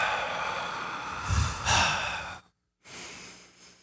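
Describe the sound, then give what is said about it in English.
A deep breath with a sigh-like quality: a long, breathy rush that swells in the middle, a brief silence, then a softer trailing breath. “Okay, so we're going to go ahead and just take a deep breath for Jesse.”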